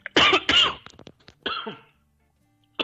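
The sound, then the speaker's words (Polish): A coughing fit after choking: several harsh, loud coughs and throat-clearing bursts in quick succession, then a short silence before one more cough. “Przepraszam, no, zakrztusiłem się.”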